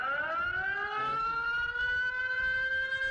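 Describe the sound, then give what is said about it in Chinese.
A flash-flood warning alarm sounds from a router-like home warning terminal installed in a village house. It is a steady electronic siren wail that rises slightly at first, then holds a continuous tone for about three seconds. “这个类似无线信号路由器的终端设备被安装在村民家中，一旦接收到山洪避险信号就会发出报警。 测试，”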